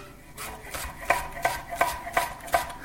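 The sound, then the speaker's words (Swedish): Knife chopping a yellow onion coarsely for a minestrone soup, a steady series of crisp, evenly spaced strikes on a cutting board that grow sharper and louder partway through, with no talk. “Så, vi ska skära igenom den här löken lite, det behöver inte alls vara så fint.”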